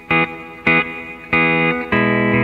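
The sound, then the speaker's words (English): Four loud sustained chords ring out through a Bonato Steel Dream effects board with a little reverb added. Each note attack is sharp, and its rich harmonics hang and fade before the next one starts. “I use this little Bonato effects board. It's called the Steel Dream, and he's got a great sound and little reverb in there,”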